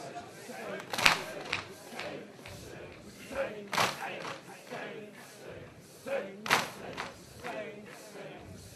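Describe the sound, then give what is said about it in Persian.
Mourners beat their chests in rhythm at a mourning gathering. Heavy thumps rise and fall under loud crowd chanting, with a few sharper, stronger blows standing out at roughly even intervals. “دست بیاد بالا دست بیاد بالا محکم به سینه بزن”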